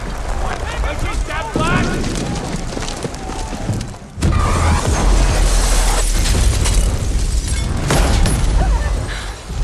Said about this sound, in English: As the car explodes, hot flames billow her net curtains and she ducks.